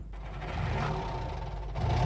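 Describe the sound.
A car engine runs at a steady, low, quiet rumble as a driving sound effect for a radio show, with no voices over it.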